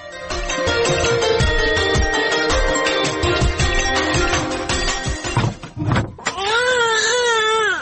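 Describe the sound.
A boy crying in loud, long wails, the sobbing pitch wavering up and down as the cries swell near the end.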